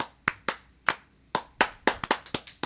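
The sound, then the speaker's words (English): Thin, deliberately weak applause from a studio audience: a dozen or so scattered, uneven hand claps rather than a full ovation, with sparse single claps at first and a quicker cluster toward the end. “Do a bad applause. I'm trying to get everyone to do applause.”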